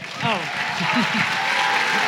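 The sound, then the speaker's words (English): An audience at a Mother's Day service applauds to welcome a speaker to the stage. The clapping is steady and sustained, with a voice speaking over it. “I'm going to exit the stage and one of you guys welcome and put your hands together for CJ.”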